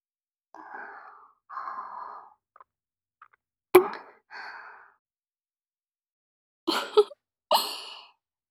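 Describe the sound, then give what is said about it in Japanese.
Soft kisses at a vow kiss, heard as a few sharp lip smacks among quiet breaths and sighs, faint and sparse with long silences and no talk. “誓いのキス、してしまいましたね。”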